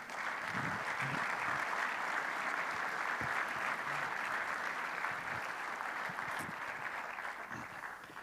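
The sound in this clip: Audience applause welcoming a guest author to the stage: dense, steady clapping from a crowd that holds at an even level throughout.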